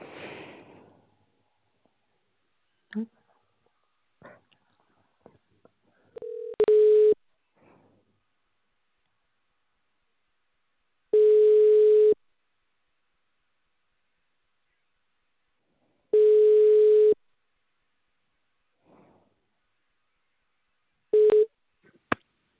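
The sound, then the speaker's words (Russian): Ringback tones on an outgoing call placed by an automated callback system while the line connects: after a few faint clicks, a few steady mid-pitched beeps repeat at regular intervals of about five seconds, with silence between them. “Для соединения с абонентом... Начинаем звонить абоненту. Ожидайте соединения.”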